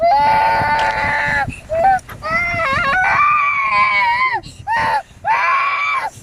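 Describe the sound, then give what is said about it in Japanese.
A young child crying loudly in several long, high, wavering wails separated by short breaks, with no other sounds in the gaps. “もう無理やわ、泣いてるもん。”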